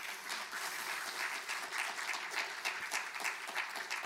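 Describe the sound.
An audience claps steadily after a speaker is introduced at an academic talk. Many dense, even claps blend into a continuous wash with no voices over them.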